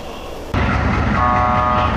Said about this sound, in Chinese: 在火车的汽笛声中，从北京国际陆港开行的第100列国际班列正式出发，前往白俄罗斯。